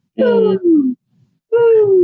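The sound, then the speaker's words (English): A person's voice imitates an owl's very subtle hoot, made outdoors at home. A few low, breathy, voiced hoots slide gently downward in pitch, with a short pause before the last, longer one. No other sounds accompany it. “there was this owl that has been out there with me, and it's just the like most subtle,”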